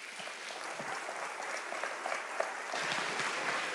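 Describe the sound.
Applause from a church audience welcoming a speaker at Lakeside Bible Church: dense, continuous clapping that holds steady throughout.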